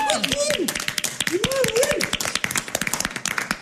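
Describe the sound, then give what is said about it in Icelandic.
An audience clapping at a lively show with contestants, with many quick, dense claps throughout and voices calling out over them. “við skulum bara klappa það fyrir.”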